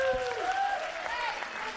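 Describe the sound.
Audience applause welcoming a guest onstage, a short steady wash of clapping lasting under two seconds.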